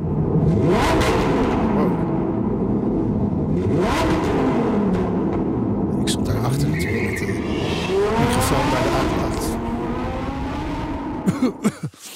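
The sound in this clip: A Lamborghini Huracan Technica engine revs hard in a tunnel, its loud, echoing roar repeatedly climbing and dropping through gear changes, then ending in a few sharp pops and crackles.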